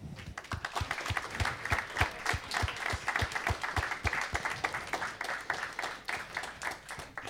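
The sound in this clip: An audience gives warm applause to welcome a guest. Many sharp, distinct hand claps patter in a quick, uneven rhythm and hold fairly steady across the whole stretch.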